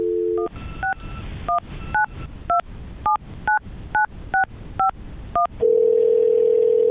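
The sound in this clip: Telephone dialing: a brief dial tone, then a quick series of about a dozen touch-tone keypad beeps, each a short two-note chirp, ending in a loud, steady, sustained tone.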